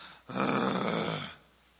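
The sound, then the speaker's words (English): A voice imitates a deep groan: a single low, rough, sustained vocal sound lasting about a second, heard alone. “I have been known to groan. I have been known to go,”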